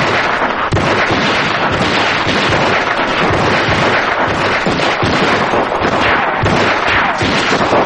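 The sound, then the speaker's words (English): Rapid gunfire from two handguns, one held in each hand, firing together: a dense, loud, unbroken barrage of sharp cracks and pops with no pauses and no voices. “jumps out and starts firing with a gun in each hand”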